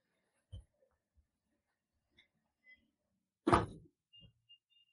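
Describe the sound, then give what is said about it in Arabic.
A door is shut with a single solid thud, surrounded by a few faint knocks and shuffles in an otherwise quiet setting. “كده اقفل الباب.”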